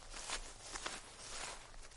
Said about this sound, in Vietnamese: đúng là tiếng bước chân người, không thể nào nhầm được